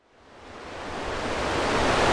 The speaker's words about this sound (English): Connecticut Public Radio's Patrick Scahill reports from the banks of the Scantic River, where today that history lives in a labyrinth of old canals and rusted floodgates